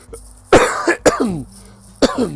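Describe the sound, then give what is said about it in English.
Several sharp, loud coughs from a person irritated by dust in the air, in uneven bursts, each followed by a short voiced, raspy tail. “So you hear me coughing, right?”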